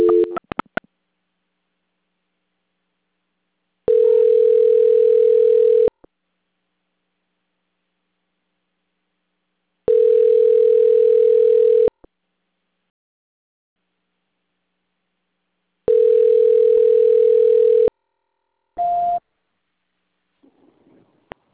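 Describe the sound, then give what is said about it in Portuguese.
Telephone line tones on hold during a call transfer: three long steady electronic beeps, each about two seconds, separated by silence, followed by one shorter, higher beep. “peço que a senhora aguarde em linha que eu vou transferir a ligação para o controle de qualidade, que dará continuidade à sua contratação e fará envio da SMS. A ligação ficará em mudo por um instante, mas peço que a senhora não desligue.”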